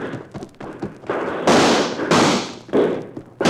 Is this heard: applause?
no

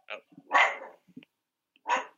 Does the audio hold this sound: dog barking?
yes

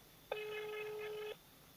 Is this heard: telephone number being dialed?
yes

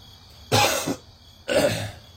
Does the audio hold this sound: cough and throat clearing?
yes

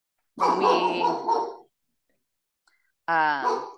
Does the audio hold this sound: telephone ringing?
no

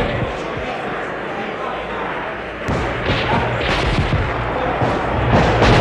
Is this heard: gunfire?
yes

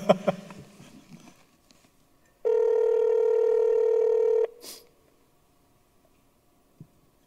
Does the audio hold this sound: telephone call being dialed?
yes

